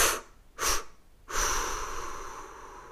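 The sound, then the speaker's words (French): A deep breath in and a slow exhale during a guided relaxation exercise: a few short airy breath bursts, then one long, steady exhalation that trails off gradually, with no talking. “Vous pouvez prendre une grande inspiration profonde et expirer en trois fois.”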